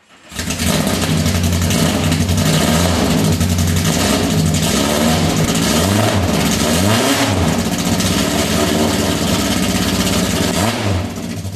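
A car engine warming up idles loudly and steadily, broken by a few short throttle blips kept below about 3,000 rpm. Each blip briefly lifts the pitch and lets it fall back, and no voices are heard.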